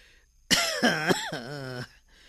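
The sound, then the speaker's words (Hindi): A few harsh, strongly voiced coughs in a quick run, loud and alone against a quiet background, lasting a little over a second. “तू ही दे दे एक गिलास पानी मुझे, खांसी बहुत उठ रही है बेटे, जा दवाई खा लूं।”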